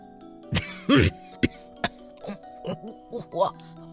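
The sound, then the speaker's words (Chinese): A person fakes a cough to pretend to have a cold. A voice imitates the sound with about eight short, rough coughs at an irregular rhythm. The later coughs turn more voiced and throaty. “我故作感冒咳嗽起来，边咳嗽边说：”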